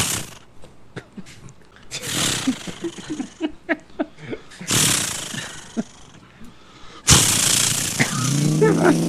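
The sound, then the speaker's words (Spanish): A voice imitates a chainsaw being started, with a few rough, roaring bursts separated by short sputtering pops. The last burst is the loudest and holds steady to the end. “Dice, primero hay que prender. No, eso es una motosierra. Que hay que prenderla.”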